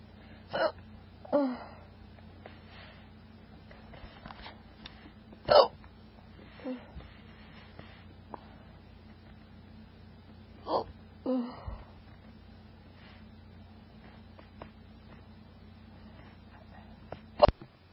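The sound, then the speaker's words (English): Sharp hiccups from someone who ate dry toast too fast, several brief bursts spaced irregularly over a quiet background, with no talking. “I think part of it was I had toast, and since it's really dry, and I eat really fast, so I get the hiccups.”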